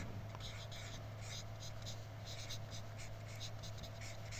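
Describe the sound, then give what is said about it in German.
Faint pen strokes scratch out the word 'Beziehung' in many quick, rhythmic scrapes, steady and soft throughout. “also ich schreibe mal Beziehung hin”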